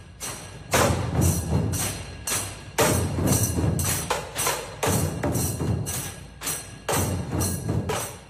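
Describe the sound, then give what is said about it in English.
Dhol tasha drumming by the Adelaide-based Shivagarjuna group, loud driving strokes on large barrel drums with sharp snare-like tasha rolls, pounding in a steady repeating rhythm with periodic heavier accented hits. “And that is the sound of the Adelaide-based Shivagarjuna Dol Tasha drumming group.”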